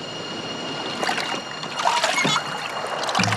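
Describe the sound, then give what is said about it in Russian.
A rowing boat crossing a river, with a few soft splashes of oars in water over a constant watery rush. “Лодка плывет через реку.”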